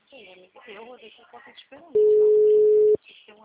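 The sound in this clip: A telephone tone sounds during a call: one steady, mid-pitched beep held for about a second, with people talking before and after it.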